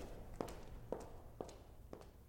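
A woman's footsteps with a clean, crisp, articulated strike: four evenly spaced steps, each a sharp tap standing alone over a low, steady background.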